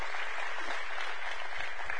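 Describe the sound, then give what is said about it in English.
At a church service, the audience applauds newcomers with a short burst of steady, dense clapping that holds at a constant level. “So if you're new here, would you just raise your hand and let us clap for you right quick?”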